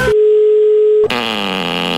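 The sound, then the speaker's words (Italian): A telephone dial tone sounds as a call is placed: one steady, mid-pitched hum held for about a second, then cut off abruptly as a different, fuller sound takes over. “Chiama Cappella!”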